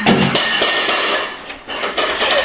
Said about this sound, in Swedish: Och de andra tar åt sig så här lite mellanmål och där får en tallrik i golvet. Det är ingen fara. Det får inte sönder ens.